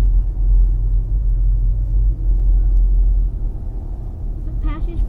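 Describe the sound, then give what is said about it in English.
A truck drives past with a deep, steady engine rumble, a low broad roar that stays loud and even across the whole clip without a clear rise or fall. “That's a cool truck.”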